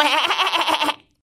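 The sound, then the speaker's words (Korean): A voice imitating a goat giggling in a told story: a quick, quavering, bleat-like chuckle lasting about a second, heard alone. “염소가 킥킥거렸어요.”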